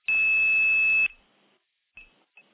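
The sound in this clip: A loud, steady, high-pitched 2600 trunk tone on a telephone line holds for about a second and cuts off abruptly. Faint switching noise follows, then two brief, quieter bursts of tone as the exchange links drop back.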